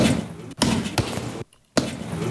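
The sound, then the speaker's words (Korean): Punches hit a sandbag, landing as a few dull, heavy thuds over a rough, noisy background, with one brief silent break between blows. “연유는 그날 속이 풀릴 때까지 계속 샌드백을 쳤다.”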